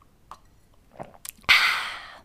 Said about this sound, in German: was ich auch weiß, ist, dass man vor so einer ausgedehnten Sprechersession und auch immer mal zwischendurch einen Schluck trinken muss.